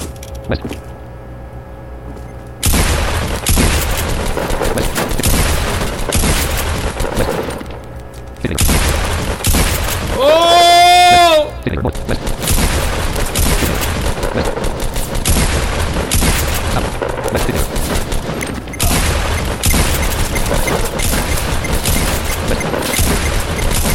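Video game gunfire: loud, near-continuous bursts of rapid shots and heavy booms that kick in after a quieter opening and keep hammering with only brief dips.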